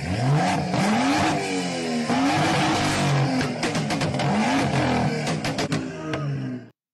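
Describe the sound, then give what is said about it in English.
A BMW car's engine is revved at full throttle on a road, a loud continuous roar with repeated rising pitch sweeps that ends abruptly. “RIP headphone listeners, but goes and just like goes full throttle on this car. And this guy's like, oh, it's so loud.”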